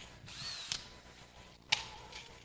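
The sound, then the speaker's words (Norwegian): Short bursts of a power drill driving screws to join two modules together, a few brief whirring spurts over a low steady background hum. “Her har vi jo to moduler. Kanskje vi kan skru de sammen, da.”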